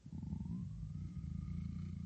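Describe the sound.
A black cat purring near a fire, a steady low rumbling purr that runs unbroken from start to end at an even loudness.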